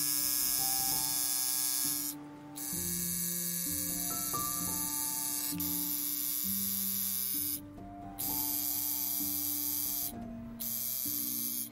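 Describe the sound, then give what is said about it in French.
A tattoo artist's needle buzzes in a continuous, harsh electric whine, broken by three brief pauses before it resumes. “Je grimace parce que le son que j'entends, je le trouve assez désagréable. C'est l'aiguille du tatoueur.”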